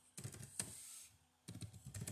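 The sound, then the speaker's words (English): Rapid clicking of fingers typing on a computer keyboard comes in two bursts with a short pause between them. No one speaks. “Give me just a second. Let me type this up.”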